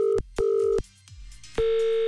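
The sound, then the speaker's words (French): Ringback tone of an outgoing telephone call: three steady beeps at one mid pitch, the first two short and close together, then a gap with low line noise before a third tone that holds to the end. “Ça sonne, ça devrait être bon.”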